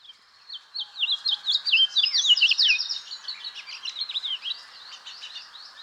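House finches in Mexico City sing in a quick, bright warble of twittering notes that grows busier and louder in the middle, then thins toward the end.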